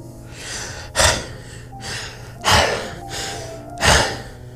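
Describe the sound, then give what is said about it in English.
A woman breathes heavily and without words. Three loud, sharp gasping breaths come at a steady rhythm, with softer, airy breaths between them. “She's like breathing insanely.”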